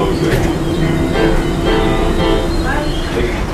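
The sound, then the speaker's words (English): Automated airport tram waiting at the platform in Denver International Airport, heading to B Gate. A loud, steady rumble and hiss with faint tonal whines runs throughout without a break. “I'm waiting at the train, the little tram in Denver International, going to B Gate.”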